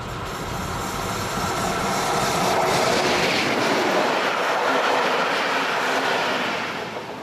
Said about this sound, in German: Die Lok der Baureihe 01 hat einen guten Klang. Eindrucksvoll die Fahrt unter der Moseltalbrücke hindurch.